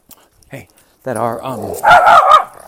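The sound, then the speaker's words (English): A dog vocalises indoors with a few faint short sounds, then a drawn-out whining yowl followed by louder, rougher barks near the end. “that's my dog. It's easy to name. My dog wants to chime in when I said crypto.”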